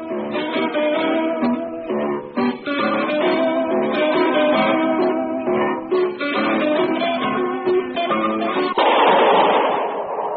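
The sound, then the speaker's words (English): A single gunshot, the shot that kills Harry Lime in a sewer beneath Vienna, bursts out near the end after a stretch of busy plucked string music and leaves a lingering, noisy decay. “Was the shot that killed Harry Lime. He died in a sewer beneath Vienna”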